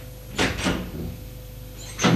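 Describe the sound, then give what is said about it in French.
A door opens with a few faint clicks and soft knocks from its latch and handle over a low steady hum. “Après un moment, la porte s'ouvre.”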